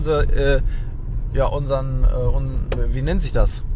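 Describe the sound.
Low, continuous road rumble of a car driving in the dark along an avenue thickly lined with large old trees, heard steadily beneath a person talking throughout.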